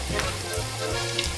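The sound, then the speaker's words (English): Hot and spicy sausage meat, left whole to crumble as it cooks, sizzling in a frying pan: a steady, even crackle and hiss that runs throughout, with no voices. “you notice that it's starting to sizzle a bit”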